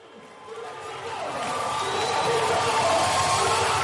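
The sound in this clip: A concert audience at an album launch at the Nyakrun Cultural Center in Juba, South Sudan, chanting for peace as a performer takes the stage; the loud mass of voices swells over the first seconds, then holds steady.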